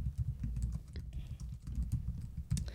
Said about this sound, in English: Type in Sugar Baby Cannibal.